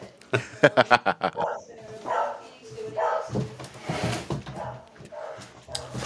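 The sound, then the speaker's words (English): A dog barks at someone leaving the house: a quick burst of sharp, repeated barks, followed by a person talking. “Hang on, that's my dog.”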